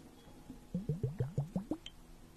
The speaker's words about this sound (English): And now I'm going to just place the ice globe by your ear.